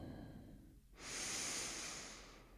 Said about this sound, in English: just take a moment to close your eyes and let's take a full breath in.